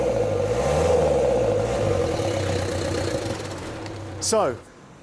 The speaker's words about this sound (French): On va voir si ce turbo fonctionne. J'enfile un gant ici, un coup d'accélérateur.